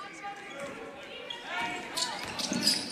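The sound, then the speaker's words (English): A basketball bounces on the court during a St. Scholastica at Carleton men's game, its dribbles running beneath continuous play-by-play commentary. “As Winesett dribbles to his right, where he's going to be fouled.”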